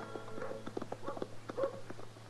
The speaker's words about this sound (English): I don't know why she's leading his mule.